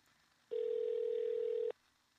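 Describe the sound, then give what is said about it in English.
A single steady telephone tone sounds while a call is placed, one even, unbroken beep lasting a little over a second, alone with no talk. “Phoning Brian Knowles right now.”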